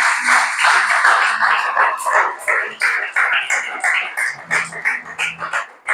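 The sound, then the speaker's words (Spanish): Congregation applause fills a church: dense, continuous clapping that stays loud and steady throughout, mixed with raised voices. “Amén. Gloria al Señor. Dale ese aplauso al Señor.”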